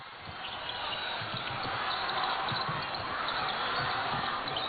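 A basketball dribbled up the court by the Czech team in an overtime game against China: regular, dull bounces under a continuous crowd roar and commentary.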